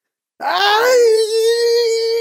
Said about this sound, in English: Alibi half yelled.